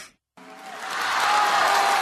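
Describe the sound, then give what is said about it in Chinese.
Audience applause at a Chinese crosstalk comedy show. It begins after a brief silence, then swells into a loud, sustained wash of clapping. “谢谢谢谢，朋友们的掌声非常的热烈，我们心情十分的开心。”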